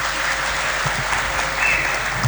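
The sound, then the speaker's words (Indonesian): Audience applause for the puppeteer at a wayang kulit shadow-puppet performance: a brief, steady burst of many hands clapping at an even, moderate level, with no talk over it. “Hadirin kerat tepuk tangan kagem beliau.”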